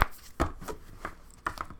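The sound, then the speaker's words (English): Cards from a Spellcasting Oracle deck are shuffled for a card pull, with a few soft, quick riffling taps at irregular intervals at a quiet level. “And now let's do some card pulls. Or a card pull. Good God. It's going to be from the Spellcasting Oracle deck, as always, because I'm boring.”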